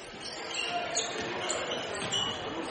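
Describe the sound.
A basketball bounces on the court after being dropped during a boys' high school game, Faribault at Owatonna, the thumps blurred into a steady roar of crowd noise that holds at an even level throughout.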